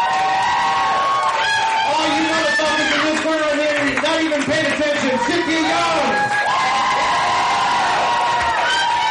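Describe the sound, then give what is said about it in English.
An audience at an underground performance event cheers for a performer. A loud, dense roar of shouts, whoops and high-pitched cries continues throughout. “Yeah, make some noise for Cynthia Young, ladies and gentlemen.”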